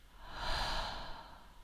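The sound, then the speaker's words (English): A slow, deep breath makes a soft, airy rush that swells and then fades in one long, unbroken stream, faint and heard alone. “One last time, breathing in and release.”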